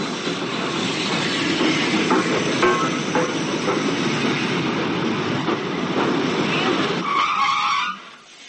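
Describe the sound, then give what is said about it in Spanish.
A train brakes to a stop at a small halt with a long, steady rumble and hiss, then sharp high brake squeals near the end before the sound drops away. “El tren para ante el apeadero.”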